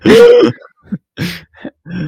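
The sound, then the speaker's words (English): A voice imitates a robotic, modulated rasp, the dying breath of a wounded character. A few harsh, gravelly bursts of varying length follow one another with short silent gaps. There are no clear words. “he breathes in, like, there's, it's like a weird, like, robot sound because of his voice modulator. It's a weird modulated rasp.”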